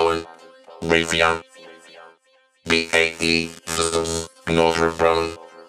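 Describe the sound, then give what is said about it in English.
A music track played through a saturation plugin with its anodize control raised, heard as a few bright, harmonically rich phrases separated by short gaps of near silence. “I like that. It's bringing in some nice flavor. It's bringing in a nice kind of saturation kind of feel to it. And I've also kicked up the anodize a little bit as well. So let's drop it out of bypass. Let's have another listen and see what we get.”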